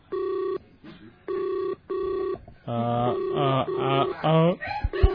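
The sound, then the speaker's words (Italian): Telephone ringing as a call goes out to a guest: three evenly spaced bursts of a steady electronic ring, then a busier passage of warbling, shifting tones. “Lo sto chiamando. Lo riusciamo a sentire?”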